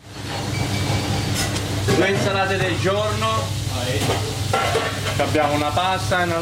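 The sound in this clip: Guanciale sizzles as it fries in a pan for carbonara in a restaurant kitchen in Geneva. The frying hiss runs steadily throughout while a person talks over it.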